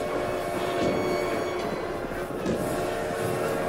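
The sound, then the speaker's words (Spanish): A train approaching, heard as a steady rumbling roar with rattling metallic texture that stays loud and continuous throughout, without pauses. “Vieron venir un tren.”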